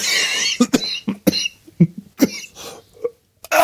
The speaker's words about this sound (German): Oh, Entschuldigung, ich habe mich total verschluckt.